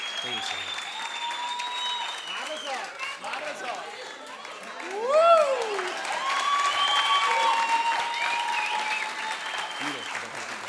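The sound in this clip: Concert audience applauding and cheering as musicians are given the stage, with continuous clapping and voices throughout that swell to a louder peak around the middle.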